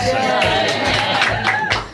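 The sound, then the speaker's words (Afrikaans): Hand claps amid excited voices: a few sharp claps break through lively exclamations and chatter, the voices staying prominent throughout. “Nou kan ons my hande klap.”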